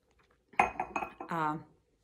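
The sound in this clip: A coffee cup and dishes clink in a few quick, bright knocks, then a short voiced sound follows, all fairly faint.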